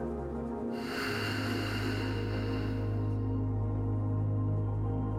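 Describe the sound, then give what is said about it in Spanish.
A deep inhale comes as a long, soft rush of air lasting a few seconds, over steady background music tones that continue after the breath fades. “Inhala profundamente, sostén el aire por un momento y exhala.”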